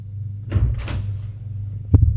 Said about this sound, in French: Il entre dans l'ascenseur. Et sort de l'ascenseur.